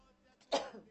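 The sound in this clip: A single short cough or sneeze from a person during rainy weather, a brief breathy burst that swells quickly and trails off, faint and alone.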